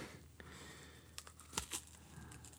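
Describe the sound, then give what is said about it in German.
Faint crinkling and tearing of wrapping as a nicely wrapped package from a Russian supermarket is opened, with a few sharper rustles bunched near the middle. “Da mach ich's mal auf, oder? Ja, mach's mal auf, bitte. Es ist sehr schön eingepackt, muss man sagen.”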